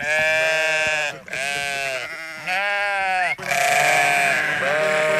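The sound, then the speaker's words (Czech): Sheep on a pasture bleat loudly and almost without pause. Long, wavering, overlapping calls follow one another with only brief dips between them. “Takže ovečky, tady na Trojmezi, u Staňu, líbí sa vám tady?”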